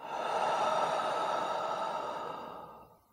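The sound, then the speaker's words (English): A deep breath drawn in through the nose and let out through the mouth is heard as one long, audible, breathy exhale. It holds steady and then fades away, with no talk. “Draw a deep breath in through your nose, out through the mouth.”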